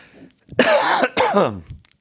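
Two harsh, breathy coughs from a person, fairly loud and coming one after the other with a short gap, each a rough burst under half a second long, with no talk around them.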